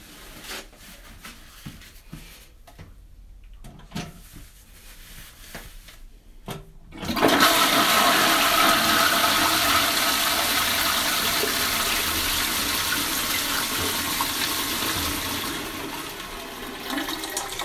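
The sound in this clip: A toilet flushing: a few faint clicks and rustles lead into a sudden loud rush of water that carries on steadily for about ten seconds, easing only slightly near the end.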